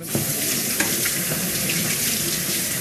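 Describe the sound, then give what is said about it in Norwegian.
Vegetables being washed under a running kitchen tap at home: a steady, bright rush of water splashing into the sink, with a few faint knocks as the produce is handled. “det er på tide å vaske grønnsaker nå.”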